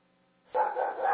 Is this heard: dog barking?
yes